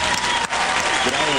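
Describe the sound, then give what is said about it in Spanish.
Applause rings out for a participant on a Spanish-language show, a loud, dense burst of clapping that dips for a moment and then swells again, with a voice starting to speak over it near the end. “Es un aplauso para Oscar, por favor, Andrés.”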